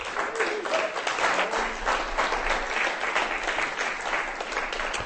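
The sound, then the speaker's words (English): Applause from the audience at a reading fills the whole stretch: dense, steady clapping at an even level with no break. “Thank you. That is Christian. Give him a hand.”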